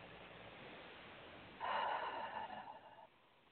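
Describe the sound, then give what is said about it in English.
A single deep breath taken during a guided relaxation exercise: a soft, airy nasal rush lasting about a second and a half, faint and heard alone. “And take a nice deep breath.”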